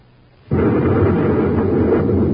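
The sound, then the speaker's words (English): A space grenade explodes with a sudden loud blast about half a second in, then a dense, sustained roar that stays loud to the end. “Smoking rockets, what was that? Space grenade.”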